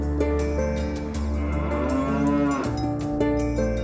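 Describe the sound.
A cow moos in long, drawn-out, low calls that shift slightly in pitch, loud and alone with no voices.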